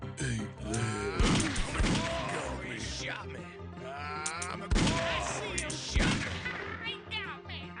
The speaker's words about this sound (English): You almost got shot. Shoot.